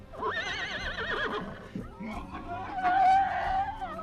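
A horse neighing, with a loud, quavering whinny that wobbles rapidly in pitch. A few fainter, rougher calls follow.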